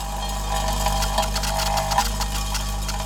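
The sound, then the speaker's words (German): A Fraunhofer prototype machine sorts mixed building materials from demolition with a constant low mechanical drone and quick, rattling clicks running steadily throughout. “Diese Maschine der Fraunhofer Gesellschaft könnte dafür die wichtigste Voraussetzung liefern, nämlich die zahlreichen Baumaterialien zu sortieren, die bei einem Abbruch anfallen. Noch ist sie ein Prototyp,”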